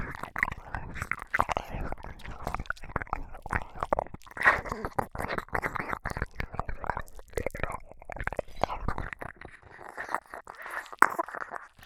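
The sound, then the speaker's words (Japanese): Close, quiet ASMR mouth sounds of eating an ear: a continuous stream of wet clicks and smacks with a breathy, whisper-like texture throughout. “もうお耳を食べても快感で呼吸が止まったりしないことが分かりましたので、こちらのお耳もいただきますね。”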